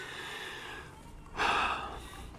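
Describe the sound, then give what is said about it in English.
A single deep breath drawn in during a prayer at a church service, a short, soft rush of inhaled air, faint and alone over quiet background hiss. “Take a deep breath.”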